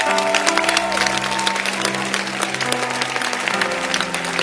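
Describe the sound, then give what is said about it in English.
A church audience on a Sunday morning standing and clapping, a full, lively burst of many hands beating at a steady level that carries on without pause. “Therefore, stand up and clap again.”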